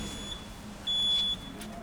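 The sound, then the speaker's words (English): A security side gate at the Scottish Parliament opens with a single steady electronic beep. The beep is short and faint, over a quiet background hiss. “That's the sound of the gate opening.”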